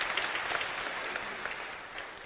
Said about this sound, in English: Let's give our choirs a hand clap.